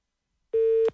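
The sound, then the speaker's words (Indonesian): A telephone busy tone sounds after a call is cut off: a single steady, mid-pitched beep follows a moment of silence, then stops abruptly. “Oh, sayang sekali terputus ya.”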